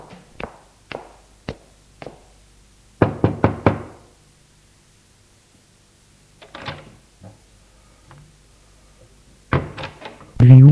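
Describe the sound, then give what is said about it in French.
Knocking on an apartment door at the top of a staircase: a few sharp, separate knocks, then a quick group of four, followed by further scattered knocks and thuds, loud and clear with no voices. “Laurent monte les escaliers et frappe chez Charles.”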